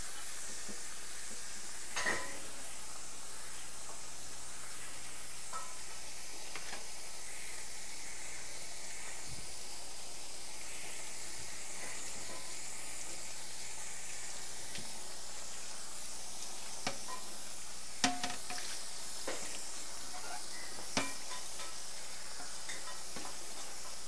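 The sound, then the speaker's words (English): Food sizzling in a saucepan while being stirred, a faint steady hiss broken by a few soft spoon scrapes and clicks, with no talk. “Mixing in your saucepan.”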